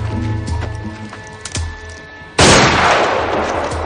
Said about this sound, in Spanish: Saca una caja metálica sellada con un candado. Ya fuera, la revienta de un disparo.